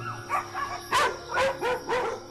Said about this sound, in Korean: 밤이 되면 목청을 높이는 아이들. 이렇게 짖어도 뭐라 할 사람도 없고요.